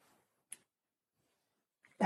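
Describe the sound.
A dog barks indoors with a faint, short yip, then falls silent before letting out a louder, sharper bark that cuts off at the very end.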